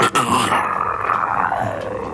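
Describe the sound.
A human voice imitates a tiger's growl, a single rough, drawn-out throaty rumble lasting about two seconds and easing off slightly toward the end.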